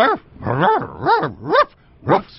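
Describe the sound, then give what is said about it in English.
A person imitates a dog barking, doing an impression of Lassie the Wonder Dog: five yelping, tonal barks that arc up and down in pitch, loud and alone. “And this would be an impression of Lassie the Wonder Dog?”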